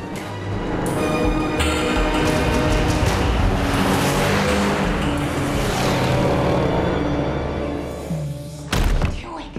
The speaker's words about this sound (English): Jessica's 4x4 and a van drive up a dusty track in the countryside to a large derelict house.